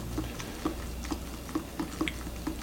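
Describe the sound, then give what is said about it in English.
Soft, wet patter of a spoon stirring instant Cheetos mac and cheese, with several evenly spaced sticky scrapes and clicks in a steady rhythm, fairly quiet and with no talking. “All right, let's stir it up.”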